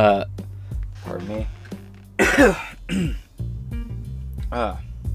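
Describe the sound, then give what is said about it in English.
A person clears their throat with a harsh, rasping burst near the middle, surrounded by several short voiced throat sounds and hums; no words are spoken. “Give me one second, I need to clear my throat.”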